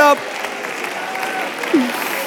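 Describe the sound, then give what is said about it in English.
A church audience claps hands during worship as a dense, steady patter of applause, with voices rising above it. “Clap your hands.”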